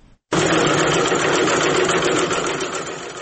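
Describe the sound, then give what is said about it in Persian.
Sewing machines stitching face masks in Faryab: after a brief quiet moment, a loud, rapid, steady mechanical whirring starts abruptly and runs on continuously, easing slightly toward the end. “این صدای چرخ ماشین های خیاطی است. 10 دختر جوان فاریابی مشغول دوختن ماسک هستند.”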